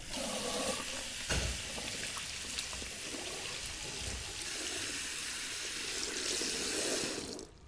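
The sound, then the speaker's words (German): A faucet runs steadily into a sink while hands are washed beneath it. The stream makes a continuous hissing splash with occasional heavier splatters, and it stops abruptly at the very end. “Wir waschen als erstes uns die Hände.”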